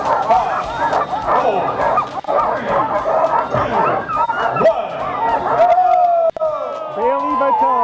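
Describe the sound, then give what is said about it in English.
Sled dogs bark, yip and whimper at the Iditarod ceremonial start. Many excited calls overlap in a dense, continuous chorus, with human voices mixed in. “Sound for the ceremonial start this week. The huge journey underway with a record few mushers in the field this year. Just over 30 sled dog teams making the trek for about another week or so.”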